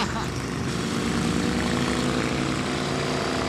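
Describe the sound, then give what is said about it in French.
Deep, loud rumble of a big four-cylinder engine pulling hard with low-end torque, a steady dense drone that holds without a break from start to finish. “c'est pas sans chevaux comme un gros 4 cylindres perché tout en haut, difficile d'accès. Il y a du couple, le couple il est là très bas, on l'entend là. Là, ça tracte.”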